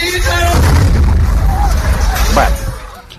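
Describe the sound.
A loud, deep explosive boom from a science demonstration after a countdown, likened to an atomic blast, rumbles steadily for about two and a half seconds before fading, with crowd noise and voices mixed in.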